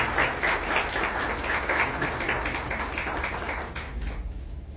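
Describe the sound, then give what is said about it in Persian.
An audience at a gathering of a literary friends' association claps. The dense, steady applause holds at an even level, then thins and fades out at the end. “به افتخار خودتون این دست بزنید.”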